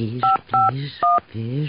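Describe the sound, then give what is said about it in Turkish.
Touch-tone telephone dialing in a radio drama: three clear, evenly spaced beeps, each a steady dual-pitched tone, set between short bits of voice. “Dur şunu bir arayayım. Telefon numarasını şuraya yazmışım.”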